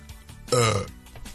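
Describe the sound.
A single loud, low-pitched burp lasting about a third of a second, voiced and gravelly, standing out clearly against quieter background sound.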